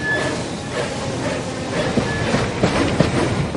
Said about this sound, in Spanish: El tren se aleja despacio.